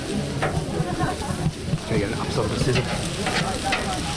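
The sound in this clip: Democracy sausages, cooked by election volunteers at an Australian election, fry with a steady, dense crackle and sizzle. Voices murmur beneath the continuous hiss.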